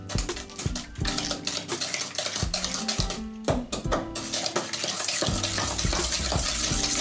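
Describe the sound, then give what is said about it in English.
An egg being stirred into batter in a bowl: repeated clinks and taps of a utensil against the bowl over wet, sloshing mixing sounds, steady and fairly busy throughout. “And then drop the other egg in. And stir it in.”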